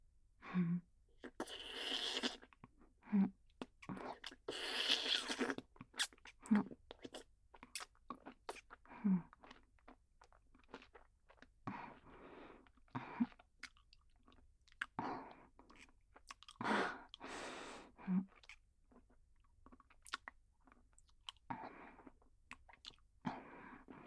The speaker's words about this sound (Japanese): 食べてあげようか